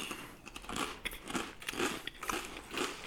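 Crisp crunching and chewing of barbecue potato chips: many irregular, fairly loud bites and crackly crunches follow one another steadily, with no talking over them.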